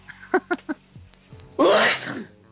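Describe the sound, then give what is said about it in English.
Repeated allergy sneezing: three short, sharp catches in quick succession, then a pause and one loud, breathy sneeze that trails off into quieter breathing. “Bless you. Goddamn allergies. God damn, that's 4 sneezes in a row, bro.”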